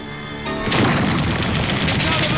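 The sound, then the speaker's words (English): Enemy weapons open fire in a camp with a dense, loud burst of booming gunfire. It surges in after a brief lead-in and roars on without pause to the end. “The sound of my enemy weapons opening up!”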